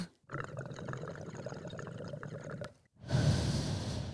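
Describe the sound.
Faint breathing of someone inhaling vapour from a dab: a long, breathy draw lasting over two seconds, a brief silence, then a louder rush of breath.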